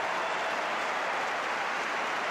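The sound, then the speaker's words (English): Applause from the crowd on center court at a tennis match, after a point against Maria Sharapova. The clapping forms a steady, even wash that runs unbroken from start to finish. “Everybody on center court clapping in unison for the quality of that point.”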